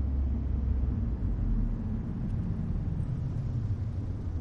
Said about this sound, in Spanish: Al poco van los tres en el coche.